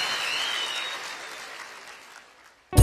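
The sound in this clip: An audience applauds a guest. The clapping is dense and steady at first, then gradually fades away and is cut off by a brief, sudden loud thump at the very end.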